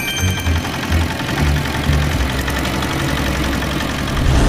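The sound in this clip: A fishing boat's engine idles with a loud, steady rumble and a rapid knocking pulse that runs evenly through the whole stretch, with no voices over it.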